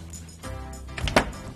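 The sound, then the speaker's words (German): Knocking on a room door: a few dull, hollow raps close together near the end, moderately loud, following a quiet stretch with low background noise. “Ich klopfe an. Mal sehen, ob er da ist.”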